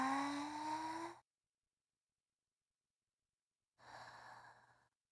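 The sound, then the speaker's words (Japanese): Slow human breathing: two soft breaths, a longer airy one with a faint sighing tone, then a quieter breath after a pause of silence. “吸って、吐いて、”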